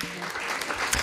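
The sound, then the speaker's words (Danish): Canned applause sound effect played in a studio: a short, steady burst of dense clapping that holds at an even level for about a second. “Har vi noget klapsalve liggende”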